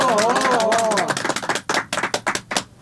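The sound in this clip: Scattered hand claps from an audience at a poetry gathering welcoming a poet to the stage, a handful of crisp, uneven claps following a brief voice.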